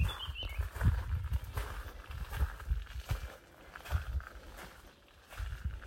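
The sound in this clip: Footsteps of someone walking outdoors around to the front of a house with a garden bird table: a run of soft, irregular thuds, faint overall and fading in the middle before picking up again.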